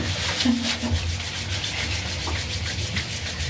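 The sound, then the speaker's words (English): Palms rubbing briskly together to warm them up, a steady, dry, swishing friction repeated in quick, even strokes. “First of all, warm up the palms of your hands by rubbing them together.”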